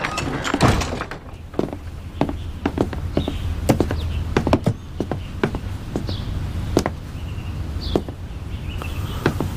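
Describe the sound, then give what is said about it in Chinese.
A door being closed, heard as a scattered series of sharp knocks and dull thumps over a low steady hum, with no talk. “把门关上。”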